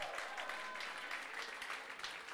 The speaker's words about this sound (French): On applaudit l'Angola.